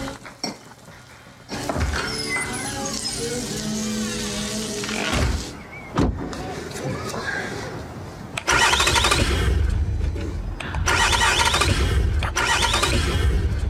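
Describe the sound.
A car engine cranks but fails to catch, its starter whirring and sputtering in repeated attempts that grow louder and rougher in the second half.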